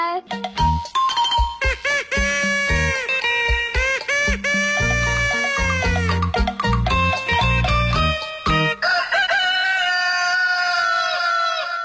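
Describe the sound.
Rooster crowing woven into a busy musical opening jingle for a 7 a.m. morning sports show, with arching, drawn-out calls riding over loud music and bright chime-like tones throughout.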